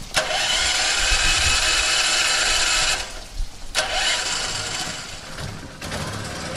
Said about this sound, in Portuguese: O gerador está junto a um grande depósito com capacidade para 10 mil litros de água. Já está a captar água.